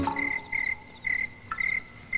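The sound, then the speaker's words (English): Crickets chirping on a quiet evening alongside a croaking bullfrog, the crickets giving four short bursts of high, steady trilling separated by brief pauses, with faint frog calls underneath. “Crickets chirping, chirping in the quiet of the evening. I hear a bullfrog”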